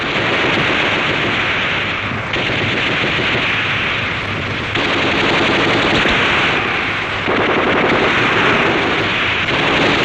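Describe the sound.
Loud machine-gun fire from a war scene sounds as a sustained, rapid stream of harsh cracking shots. It runs in long unbroken bursts that fill the whole clip, with no talk over it.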